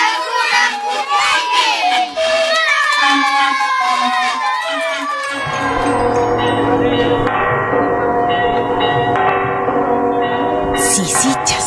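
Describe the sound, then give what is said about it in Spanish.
Church bells of the cathedral in Cusco ring out in a loud, dense wash of sustained, overlapping metallic tones that fill the second half, after a busier, chattering stretch at the start. “Esas campanas que tocan son de la Catedral del Cusco.”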